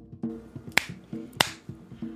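Two sharp hand claps mark the start of take two of a recording. They are crisp, bright and spaced well apart, and sit over a faint low tonal murmur.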